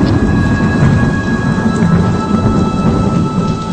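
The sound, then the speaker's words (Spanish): Thunder and rain in a storm: a dense, steady hiss of falling rain with deep rumbling thunder underneath, continuous and loud with no voices. “Ese último relámpago ha iluminado las espaldas de Esther”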